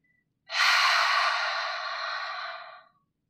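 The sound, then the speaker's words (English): A single long open-mouthed exhale, like breathing out to fog a mirror, at the end of a deep breathing exercise. The breathy, hoarse hiss lasts about two and a half seconds, steady and then fading, alone in silence. “Tapos pag-exhale, make a sound like we're fogging a mirror. Parang ganito.”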